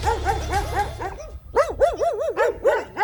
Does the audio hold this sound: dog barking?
yes